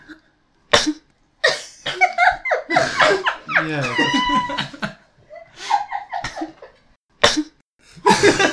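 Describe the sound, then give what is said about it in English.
A discreet sneeze comes as a short, sharp, muffled burst, followed by voices and other brief breathy bursts. “Try to sneeze. Discreetly.”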